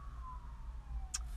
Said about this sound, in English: Siren. It's the sound of the police.